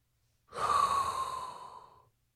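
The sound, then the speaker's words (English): A single long, deep breath drawn in, loud and airy, lasting about a second and a half and tailing off at the end, heard on its own with no talk. “inhale a hot breath”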